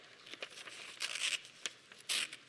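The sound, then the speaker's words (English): A paper form is folded and creased along a dotted line, then torn into two parts. Quiet, papery crinkles and rips come in a few short bursts, the last one sharper. “Now, what I want you to do, I want you to fold this on the dotted line. Fold that on the dotted line and crease it. And then go on and tear that.”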